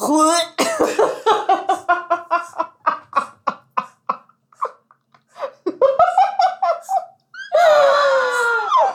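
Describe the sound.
A coughing fit: a long run of rapid, harsh coughs in a steady rhythm with short gaps, ending in longer strained, raspy voiced hacks, as if coughing up a hairball.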